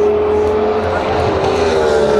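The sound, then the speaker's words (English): Roar of a Cadillac race car passing by during a sports-car endurance race alongside LMP2 and Ferrari entries: a loud, steady engine drone with a sustained tone, holding an even level throughout. “As the Cadillac goes by”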